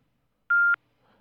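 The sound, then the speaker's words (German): A single voicemail signal tone from a Swisscom mailbox: a clean, steady mid-high electronic beep lasting about a quarter second, followed by near silence. “Bitte hinterlassen Sie nach dem Signalton Ihre Nachricht.”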